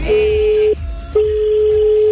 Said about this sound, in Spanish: estamos llamando a alguien. Vamos a ver si contesta y le preguntamos.